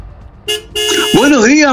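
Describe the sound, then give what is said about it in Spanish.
Car horn honking as a driver pulls up at a building's gate in Santa Beatriz: a short honk, then a longer, louder steady blare, followed by a voice speaking. “Ahí está, tocando usted su claxon”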